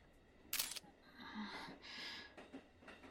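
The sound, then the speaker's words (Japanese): Camera taking a photo: a quick burst of crisp shutter clicks near the start, followed by faint, soft handling rustles in a very quiet scene. “はい、どうぞ。真剣な顔して写真撮っちゃって”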